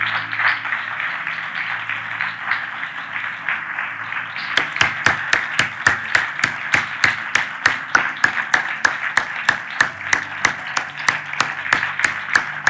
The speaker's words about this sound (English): I want you to turn and face the audience, and I want all of you men to stand and give them a standing ovation. And ladies out there.